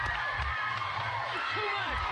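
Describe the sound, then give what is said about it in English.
A talk-show studio audience cheers wildly for Tom Cruise, with loud, continuous crowd roar carrying high whoops and screams that swoop in pitch over the din. “And then the crowd goes ape shit again.”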